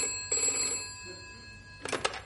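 A telephone bell rings in short bright bursts separated by pauses, fairly faint against a low steady hum.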